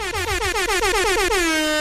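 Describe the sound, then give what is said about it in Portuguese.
Loud horn blast, sounding like an air horn: a rapid stuttering series of many short pulses that merges into one steady, sustained blare, alone without talk. “Tomei um susto agora com essa buzinada no final aí, meu Deus do céu.”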